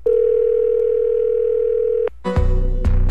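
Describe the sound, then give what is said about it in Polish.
A steady telephone dial tone hums alone for about two seconds, then cuts off as a number is dialed, and a few brief louder tones and clicks follow. “Możemy wykręcać numer.”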